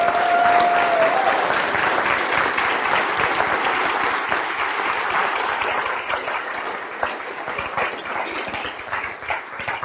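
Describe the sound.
A church audience applauds to welcome people to the stage, with dense, steady clapping that continues throughout and fades only slightly toward the end.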